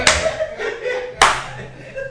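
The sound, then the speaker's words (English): Slow hand clapping: two sharp, loud claps about a second apart, each ringing briefly, with talk going on underneath. “Slow clap for you. No, I clap.”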